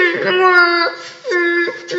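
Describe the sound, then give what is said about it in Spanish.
A voice acting out the crying of Julieta, an injured animal in a children's story who lost her hind legs: wavering, high-pitched whimpering wails that rise and break into sobbing, imitating an animal's cry. “Y le escucharon los demás animalitos del campo. ¿Cómo llora Julieta? ¡Perdió sus patitas traseras!”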